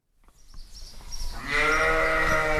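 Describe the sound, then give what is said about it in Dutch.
Sheep bleating in a sheepfold just outside Dakar, Senegal. Soft rustling and shuffling come first, then a loud, sustained, wavering bleat fills the final second. “We zijn bij Bergerie Galoya, dat is een schaapskooi net buiten de Senegalese hoofdstad Dakar”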